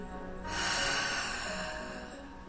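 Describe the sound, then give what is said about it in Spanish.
A slow, deep breath, soft and steady and swelling before easing off, taken during a relaxation exercise of breathing in through the nose and out through the mouth. “Inhalando largo y profundo por la nariz y exhalando por la boca”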